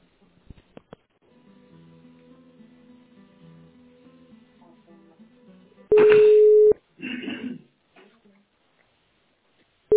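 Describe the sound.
Telephone tones while a call is placed: a few faint clicks and a low murmur, then a loud steady beep, a short burst of noise, and a second beep beginning at the end.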